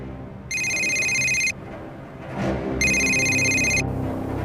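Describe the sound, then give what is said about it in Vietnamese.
A telephone rings in two bursts, each about a second long, bright and steady, with a pause between them and a low rumbling background underneath. “Nghe máy đi.”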